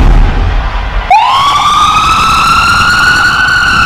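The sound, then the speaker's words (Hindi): An ambulance siren cuts in after a second of low rumbling noise, sweeping quickly up in pitch into a loud, steady, high wail with bright harmonics that holds to the end. “मैं हूं ambulance, हर रोज एक जीने की उम्मीद मेरे दामन में आती है।”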